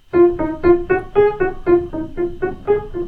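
Piano playing Bach's Prelude No. 15 in G major with the off-beat notes removed, leaving a steady series of separated notes at an even pace, each struck clearly and fading before the next.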